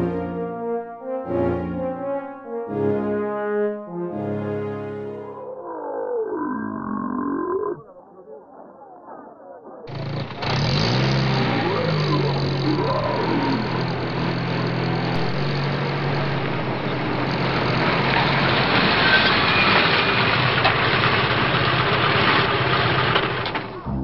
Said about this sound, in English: Sergeant, bring the Humvee around.